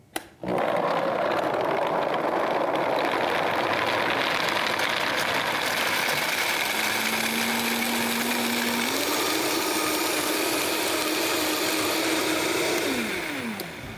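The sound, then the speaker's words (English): A Vitamix blender runs while blending a batch of homemade milk, its loud, steady motor whirring alone. The pitch steps up twice as the speed increases, then the motor winds down and cuts off at the end. “I'm using a Vitamixer, and this is the king of blenders. So here we go.”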